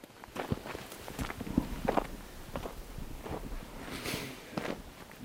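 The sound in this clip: Footsteps on a walk through the lower part of the village of Vrin, a run of several irregular steps that stand out alone, fairly faint, over a soft background hush.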